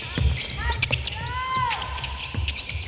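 Basketballs bouncing during a women's team shooting practice on mid- to long-range shots: many quick, overlapping thuds with squeaking sneakers mixed in.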